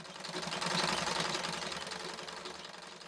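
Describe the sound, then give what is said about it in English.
A pedal-operated sewing machine stitching children's uniforms at night makes a quiet, rapid mechanical chatter, a fast even ticking rhythm that runs continuously and eases slightly toward the end. “That's why I came here to sew tonight. This machine works with a pedal, which is why I came here.”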